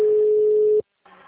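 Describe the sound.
A steady telephone line tone sounds while a bank call-center agent phones clients. It holds one even pitch for just under a second, then cuts off into a short silence before a voice starts briefly at the end.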